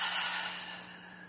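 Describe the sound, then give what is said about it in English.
A deep breath slowly let out through the mouth: a soft, airy rush that starts at full strength and fades gradually. It is heard alone over a faint steady hum. “I'm taking a deep breath in and slowly breathing out through my mouth.”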